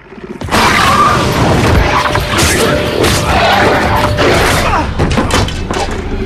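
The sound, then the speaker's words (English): Heavy crashes and thuds as a werewolf lands on a pool table in a bar. The noise begins abruptly and stays loud, with many jumbled impacts and clattering bangs throughout. “At the bar, a werewolf turns around, bares its teeth, and flies across the room to attack the two men, landing on the pool table.”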